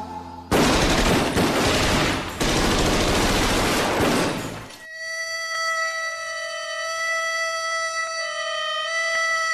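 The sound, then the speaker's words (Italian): Gunfire in a dense, loud volley of rapid shots, lasting about four seconds. It then gives way to a steady, sustained tonal note that holds to the end. “qualche sparo in sottofondo”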